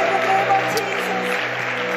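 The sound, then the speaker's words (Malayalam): An audience claps in worship during a church service. Brisk, dense hand-clapping runs over a steady, low, humming musical drone. “കൈയടിച്ച് പരിശുദ്ധാത്മാവിൽ ആരാധിച്ചുകൊണ്ട് വരാം.”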